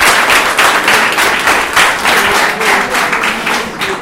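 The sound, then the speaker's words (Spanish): Applause from an audience at a secondary school radio session about circus arts: a dense, steady wash of many hands clapping, loud and continuous for the whole stretch, with no voices standing out. “Un fuerte aplauso”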